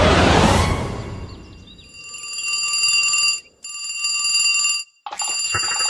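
A telephone rings as a call goes through. A brief loud rush of noise comes first, then a bright, buzzing electronic trill sounds in three bursts separated by short pauses.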